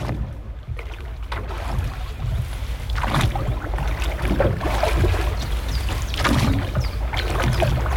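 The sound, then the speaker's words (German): Rowboat on a lake: steady water lapping and gurgling against the hull, with soft, repeated splashes of oars moving through the water. “Ein Ruderboot auf dem See. Erfrischend, oder?”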